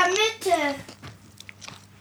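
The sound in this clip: Crisp crunching of a thin, puffed-up chip that has formed a bubble with two very thin walls as it is bitten and chewed. A brief voiced sound comes first, then a few faint, dry crackles follow.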